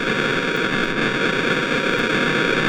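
Steady, electronically generated noise used as an example of noise in electronic music: a dense, unbroken hiss-like wash with faint tonal bands running through it. It stays loud and constant throughout, with no voices.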